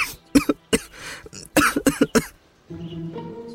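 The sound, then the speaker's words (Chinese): Repeated coughing from someone choking on a mouthful of soy milk: a quick run of many sharp, harsh coughs in uneven bursts, loud and alone, stopping after about two seconds. “唐范一口豆浆差点呛入鼻子，不由得连连咳嗽。”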